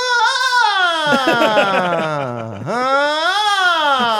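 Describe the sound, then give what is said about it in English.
A toddler's voice imitates a leaf blower with a loud, sustained, droning cry. It slides steadily down in pitch, then climbs back up, over about four seconds. “He's obsessed with mimicking the leaf blowers. Does that sound fun? You're trying to have a beer on the patio and you hear a toddler going,”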